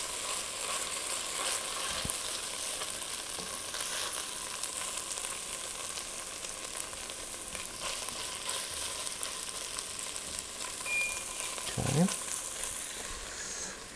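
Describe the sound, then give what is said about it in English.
Chopped ginger and crushed, chopped garlic fry in a pan while being stirred, giving a steady, loud sizzle throughout with a few brief scraping sounds from the stirring. “the chopped ginger, chopped garlic, crushed garlic. I'm going to stir that in, and I'm only going to cook it long enough just to cook off some of the raw flavor, especially of the garlic there.”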